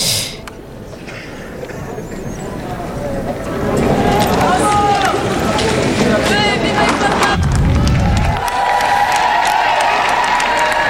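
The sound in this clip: Crowd of young people with Holy See flags cheering the Pope. Loud, continuous cheers, shouts and applause swell after a few seconds and then hold steady.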